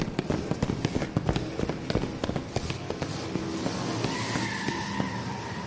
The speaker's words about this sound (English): The car tore through the blackness, its engine a thunderous roar